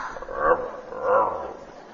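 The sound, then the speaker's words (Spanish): Growling, given as a dog's growl but voiced by a person imitating it: two short, rough, throaty bursts of moderate loudness, separated by a brief pause. “Una es decir, sacar uno de mis múltiples gruñidos.”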